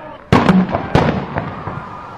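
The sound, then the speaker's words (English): Two sharp, loud bangs from a stun grenade fired by police during a clash with students at a university campus, each blast ringing briefly before fading. “The police also entered the fray and fired a stun grenade at the students.”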